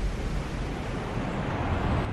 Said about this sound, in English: Waves lash a seafront.